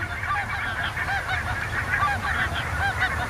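Geese honking: a continuous, dense chorus of many overlapping nasal honks from a flock, loud and steady throughout.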